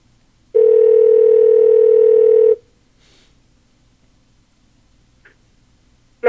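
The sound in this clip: A telephone tone sounds during a call while waiting for an answer: one steady, sustained electronic tone of about two seconds, then near silence broken by a few faint clicks.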